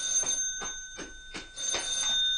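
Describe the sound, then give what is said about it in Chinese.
A telephone bell rings in a steady repeating pattern of short bright trills, about half a dozen in quick succession, with no voices. “等我听电话先。”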